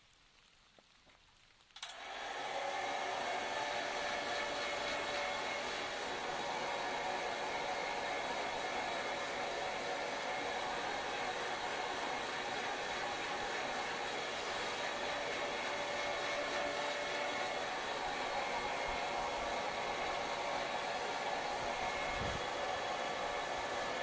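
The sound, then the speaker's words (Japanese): A hair dryer, a highly rated model, blows hot air to dry hair. It switches on abruptly after a near-silent start and then runs as a loud, steady, even whoosh with a constant hum until the end. “評価のいいドライヤーを手に入れまして、使ってみたところ、とってもサラサラになりましたので、持参いたしました。では、失礼して。”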